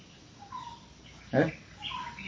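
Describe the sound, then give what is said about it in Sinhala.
Faint bird calls outdoors: a few soft, thin whistled notes over a steady background hiss, with a brief louder burst between them. “එතකොට බලන්න අපේ ඇසීම දැන් අර කුරුල්ලෙක් ගහනවා ඇහෙනවානේ.”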